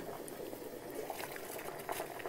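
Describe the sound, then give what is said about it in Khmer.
Tofu boiling in a pot of water gives a faint, steady bubbling with small scattered pops, brief and continuous without pause. “អូតាហូពុះហើយ អូពុះបានណា”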